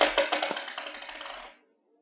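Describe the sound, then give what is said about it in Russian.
A single coin dropped onto a hard surface, giving a bright metallic clink followed by quick rattling bounces that die away within about a second and a half. “Вот вам монета. Я делаю первый взнос.”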